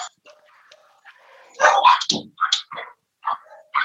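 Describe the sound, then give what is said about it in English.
Two dogs barking in a home office as someone comes to the door: a burst of several sharp, loud barks in quick succession after a quieter start, with short pauses between the later barks. “I apologize for my dogs. Hold on a sec.”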